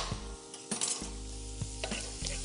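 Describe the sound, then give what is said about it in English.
Food sizzling in a pan while being stirred: a steady frying hiss broken by a few scraping strokes of a utensil against the pan. “Give that a nice little mix.”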